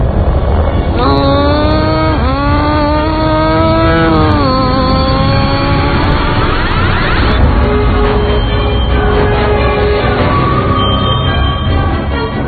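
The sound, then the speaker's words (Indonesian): A vehicle engine with a wrecked tire revs hard as it pulls away, its pitch climbing in a few repeated surges over a loud, continuous roar. “Tanpa pikir panjang, aku langsung menancap gas.”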